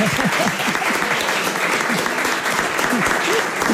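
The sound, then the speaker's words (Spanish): A studio audience bursts into sustained applause, a dense, even clatter of many hands clapping, with voices calling out over it. “Pero sí ese aplauso y el agradecimiento.”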